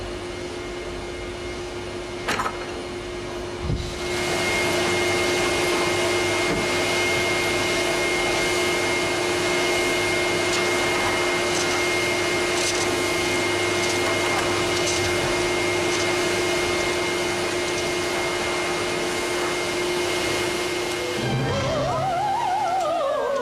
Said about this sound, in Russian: Блондинка пылесосит квартиру.